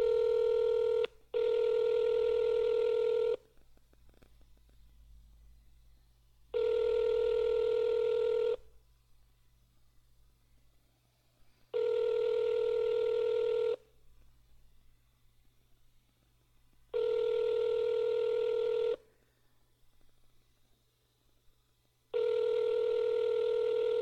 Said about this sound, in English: I'm calling him.